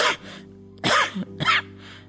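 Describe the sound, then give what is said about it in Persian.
A person clears their throat, choked with emotion, in a few rough, breathy bursts over a steady low tone. “سینه صاف کرد و بریده بریده گفت”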